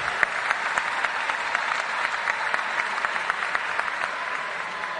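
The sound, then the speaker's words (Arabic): Audience applause for two girls: dense, even clapping that holds at a steady level for the full five seconds, with no voices standing out. “سقفوا للبنتين الحلوين دول.”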